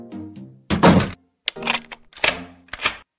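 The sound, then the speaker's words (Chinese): A classroom door is locked with a few sharp, separate clunks and rattling clicks, each a short burst with brief gaps of silence between them. “您怎么把门锁了？”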